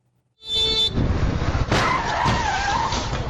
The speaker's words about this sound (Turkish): Kırmızı ışıkta geçti. Çarpışmanın şiddetiyle araçlar savruldu, kazayı görenler yardıma koştu.